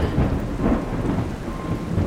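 Thunderstorm with heavy rolling thunder over steady rain: a loud, continuous low rumble with the hiss of rainfall, heard alone without voices.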